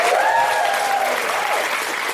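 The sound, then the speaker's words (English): A theatre audience at a live comedy event gives a big round of applause for the staff: dense, steady clapping that stays loud from start to finish. “A huge round of applause for all of this incredible staff who's doing this round-the-clock stuff here for Shedinburgh at Soho Theatre.”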